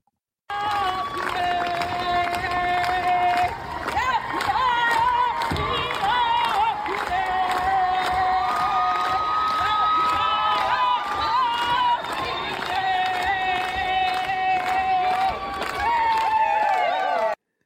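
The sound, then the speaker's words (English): A crowd cheers the first graduates of an Indigenous language fluency bachelor's degree with sustained whoops, shouts and clapping. Excited voices ring out in high, wavering calls over a constant loud roar that lasts throughout. “I believe this was the sound of the first 8 graduates of the program getting the first ever bachelor's degree from the program just recently.”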